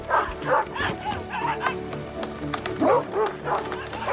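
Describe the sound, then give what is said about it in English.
Excited dogs bark and yip over and over in quick, uneven bursts, with loud high yelps mixed in. “The dogs hop up and down in excitement.”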